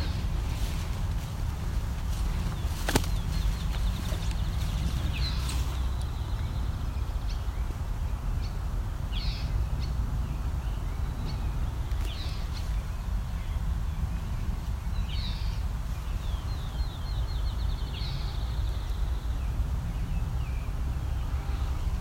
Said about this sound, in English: We've got a couple red-eyed vireos up in the open on dead ash trees, doing the call rather than the song.